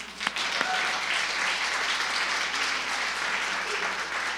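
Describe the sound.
An audience applauds at a church gathering, a dense, steady wash of clapping that holds at an even, fairly loud level for the whole stretch.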